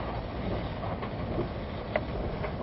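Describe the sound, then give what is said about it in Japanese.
A steady low rumble of a train running on rails, heard from inside the carriage as it nears its final stop. One faint, brief click comes midway through. “ご乗車いただきましてありがとうございました。あと4分ほどで終点の八戸に到着をいたします。”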